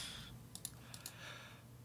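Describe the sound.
Typing on a computer keyboard into a document: a few quick, soft key clicks in two short pairs over a faint, steady hiss.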